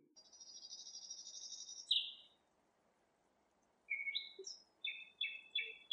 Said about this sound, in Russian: И тотчас же соловьиное щелканье, отдававшееся по саду, стало слышнее